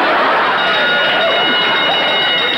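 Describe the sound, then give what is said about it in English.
Fire drill alarm sounding in a hotel lobby: a loud, continuous electronic ringing tone that holds steady without pause for the whole stretch. “that was the alarm”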